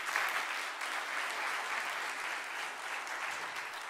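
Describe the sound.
Steady applause from a church audience for a pastor, a dense, even patter of clapping that holds level for the full few seconds.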